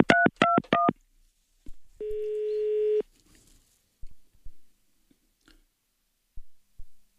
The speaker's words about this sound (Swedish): Ska vi prova att ringa hem till honom? Här har vi det.